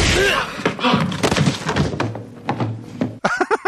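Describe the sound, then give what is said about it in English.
A kick knocks a man out cold, landing as a heavy, dull thud amid overlapping voices and scuffling in a comedy kung fu scene. “So Chuck kicks this guy who's just going to ask for some kind of directions, and he knocks him out cold”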